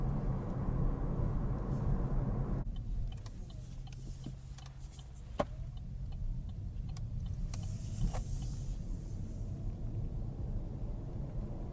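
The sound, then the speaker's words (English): A very quiet car driving on a squiggly, winding road in gasoline mode, heard as a steady low rumble with faint scattered ticks throughout. “This is kind of a fun road to drive. It's very squiggly. This car is also very quiet.”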